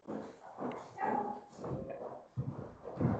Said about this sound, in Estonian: Koer ütleb tere. Koer ütleb tere, jah.